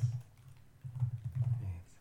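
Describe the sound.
Keys clatter on a computer keyboard as names are typed into a list, coming in short uneven bursts over a steady low hum.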